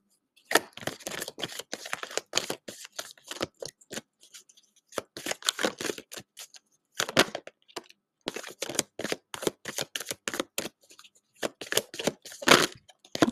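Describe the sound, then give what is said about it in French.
Oracle cards being shuffled and drawn: many short, crisp papery riffles and flicks come in irregular bursts with brief pauses between, and no one talks. “Alors, première carte qui est arrivée, Surrender Your Fear of Intimacy.”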